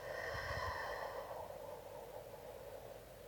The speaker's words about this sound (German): Einatmen. Hoch bis in den Brustkorb, bis er sich hebt. Und ausatmen.